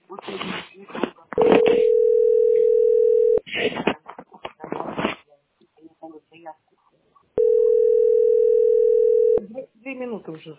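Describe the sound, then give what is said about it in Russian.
A steady, low telephone line tone sounds while a call is being placed. Two long unbroken beeps of about two seconds each are separated and framed by people talking. “Двадцать две минуты уже звоню.”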